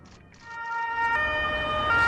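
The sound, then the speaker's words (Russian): An ambulance siren as the vehicle speeds along a city street: a steady, high, sustained wail that grows louder over the couple of seconds, with faint traffic rumble beneath. “По улице города мчит скорая помощь.”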